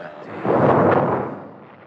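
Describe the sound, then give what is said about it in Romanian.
A cannon salvo fired in honour of the king booms out as a single deep, heavy blast that swells quickly and then rolls away in a slowly fading rumble. “Nu vă speriați. S-a tras o salvă de tunuri în onoarea mea. Pentru asta nu trebuie să tresăriți.”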